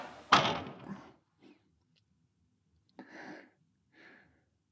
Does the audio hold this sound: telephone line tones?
no

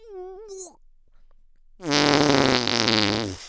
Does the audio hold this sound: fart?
yes

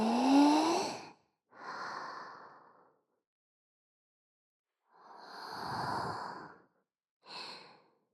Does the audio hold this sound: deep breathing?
yes

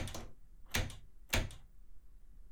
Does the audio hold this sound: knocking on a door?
yes

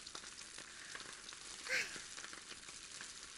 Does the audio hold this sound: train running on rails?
no

